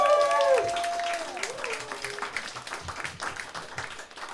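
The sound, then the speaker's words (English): Audience applause for the sound engineer at a live show: a dense, steady clatter of clapping that fills the whole stretch, with a voice heard briefly at the start. “Let's give a hand for Will for doing sound for us tonight.”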